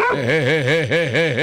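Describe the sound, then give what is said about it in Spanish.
A small dog gives a rapid, continuous string of wavering yelps and whimpers, its pitch rising and falling over and over. The cries are fairly loud and carry on without a break. “¡Quieto! ¡Ah, va, ese otro perrito ahí!”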